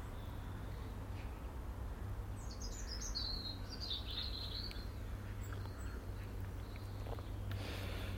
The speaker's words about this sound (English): And the birds are whistling in the trees.